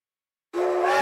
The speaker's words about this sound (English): The Prairie Dog Central Railway is back with brand new themed train rides.